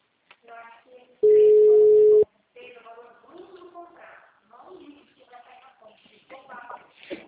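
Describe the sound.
A steady telephone ringback tone sounds once for about a second while a call is being placed, with people talking before and after it.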